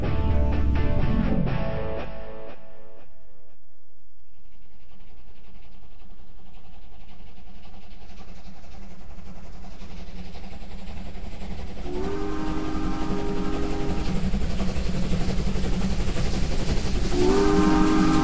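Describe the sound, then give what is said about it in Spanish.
A train running on rails gives a steady, rumbling roll throughout, with loud, sustained horn blasts sounding mostly in the second half. “Señoras y señores, estoy en un tren”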